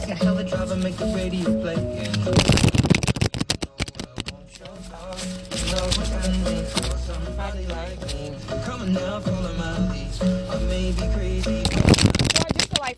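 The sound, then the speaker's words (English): A deck of cards is shuffled in a few quick bursts of papery riffling and flicking, heard over a steady background of other sound. “since i made y'all wait we gonna shuffle it four more times”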